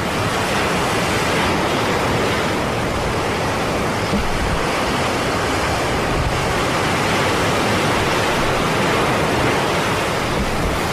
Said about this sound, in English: The tide's coming in.